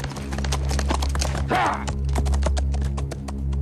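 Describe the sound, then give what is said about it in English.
Hoofbeats of a group of horses galloping across a meadow under their riders: a continuous stream of quick, sharp clip-clops, many overlapping beats keeping a steady driving rhythm over a sustained low drone. “On the hillside down below them, a group of riders gallop across a meadow.”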